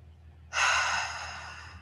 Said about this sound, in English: Two more times, deep inhale in through your nose.